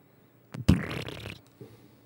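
A car with an almost straight-piped exhaust gives one loud, low, blatting burst followed by a brief rattle, then a weaker low burst.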